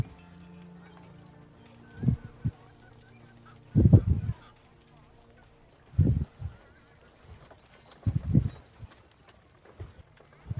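A horse ridden at night high in the hills makes a few short, separated bursts of hoof clopping against a faint, low musical bed.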